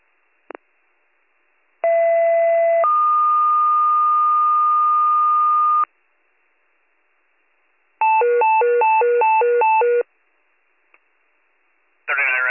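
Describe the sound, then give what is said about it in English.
Radio dispatch alert tones: a sustained two-tone paging sequence of steady electronic pitches, then a rapid burst of alternating beeps, with another brief tone burst at the end. “disregard your tones. I need to ask you to disregard your tones.”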